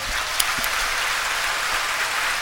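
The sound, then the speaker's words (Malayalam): Congregation at a prayer service clapping with raised hands, a steady, dense wash of many hands beating together at an even level throughout. “കൈ ഉയർത്തി കൈയടിച്ചു, ഒരു സന്തോഷം വന്ന്, അങ്ങനെയല്ല, കൈ ഉയർത്തി ശക്തിയോടെ”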